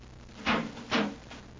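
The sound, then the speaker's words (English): A spaceship hatch opens with two soft, airy whooshes about half a second apart, fairly quiet, with no talk. “Open the hatch. Yes, sir.”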